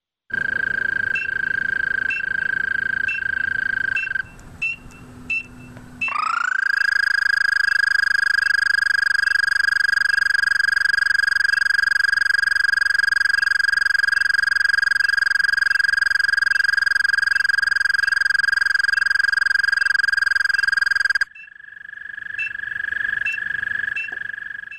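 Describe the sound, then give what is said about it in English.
Mating call of an American toad: a long, even, high-pitched trill that holds steady for roughly fifteen seconds, with shorter trills just before and after it. “what you just heard was the American toad.”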